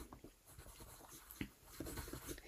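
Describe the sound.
Someone writing names by hand, a pen scratching faintly and irregularly over paper with small taps and strokes throughout.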